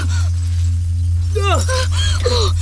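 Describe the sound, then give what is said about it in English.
A tower of drink cans topples and crashes down in a cartoon adventure, with sharp clattering bursts over a steady low hum, mixed with squeaky, voice-like chirps. “Droids don't drink Omnipot, do they? It's toppling the tower! Look out!”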